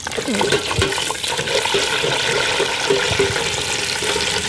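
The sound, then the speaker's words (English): Edible bugs deep-frying in hot oil at an insect farm, a steady crackling sizzle and hiss that holds at an even level throughout. “Well, this is one of my favourite ways to have them. It's just deep fried with just a tiny wee pinch of salt.”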